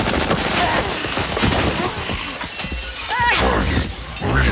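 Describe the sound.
Gunfire in a futuristic city shootout, set in Arcadia City in 2063: rapid, dense bursts of shots and crashing impacts in a continuous, loud barrage.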